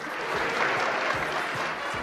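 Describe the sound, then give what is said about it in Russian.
An audience applauds after a concert, a dense, steady patter of many hands clapping that carries on evenly throughout at moderate loudness. “Все еще хлопают, слышите?”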